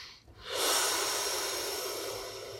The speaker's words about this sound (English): Take a breath.